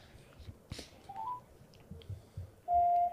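Telephone dialing tones during an outgoing phone call: a brief tone midway, then a louder steady tone near the end, over a low background murmur.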